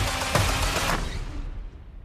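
Gunfire in a movie shootout among action heroes: a loud, dense spray of overlapping shots with a few sharper cracks, thinning and fading toward the end.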